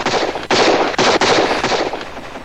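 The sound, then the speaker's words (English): Gunfire around the 11th-century stonework of a Norman citadel: a loud, dense, crackling barrage that runs almost continuously, broken by a few brief gaps. “He put his head down and set off in a headlong, zigzagging dash towards the tower, bullets whizzing past his hunched shoulders and ricocheting off the Norman Citadel's 11th century stonework.”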